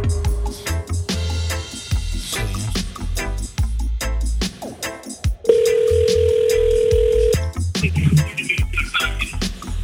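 A phone rings out on an outgoing call: one long, steady buzzing ringback tone of about two seconds sits in the middle, surrounded by loud, busy clattering sound before and after.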